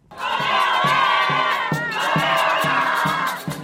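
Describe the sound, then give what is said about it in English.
Colombian football fans cheer and sing after their Women's World Cup win over Jamaica, a loud, sustained crowd roar carried over a steady low thumping beat that repeats at an even pace. “That's the sound of overjoyed Colombian fans loudly celebrating their win over Jamaica and securing their place in the quarterfinals.”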